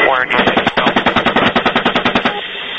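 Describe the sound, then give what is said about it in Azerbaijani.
Helicopter-mounted machine gun firing on a group of men armed with AK-47s: a long, loud burst of many rapid, evenly spaced shots in a steady pounding rhythm. “Onlara icazə verilir və vertolyot həmin bir dəstə adamı güllələyir.”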